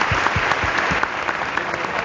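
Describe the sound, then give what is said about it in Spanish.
Applause from the gathered community of Ocaña, a dense, steady wash of many hands clapping at once that stays loud and even throughout. “Aquí está toda la comunidad de Ocaña y todos lo aplauden.”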